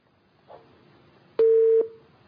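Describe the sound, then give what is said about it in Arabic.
A telephone busy tone after a phone call drops: a faint click, then one loud, steady, mid-pitched beep that cuts off abruptly. “معلش انقطع الاتصال هنتظر الاخت اسماء مره اخرى”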